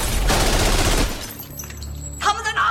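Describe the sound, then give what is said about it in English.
Gunfire erupts as a henchman opens fire on wobbling mannequins in a workshop: a loud, dense volley of rapid shots for about a second, then a quieter stretch before another brief burst near the end. “Another guy opens fire, blasting bits off the wobbling mannequins.”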